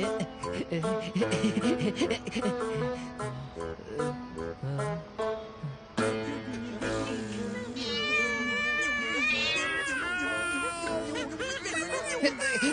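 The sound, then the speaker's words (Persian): A cat meows in a children's story, the cry that scares a bird away from a young hunter's net. The drawn-out, wavering calls come a few times over a continuous tonal background and grow clearest in the second half. “این صدای کی بود که برنده رو فراری داد؟ صدای گربه کیه؟”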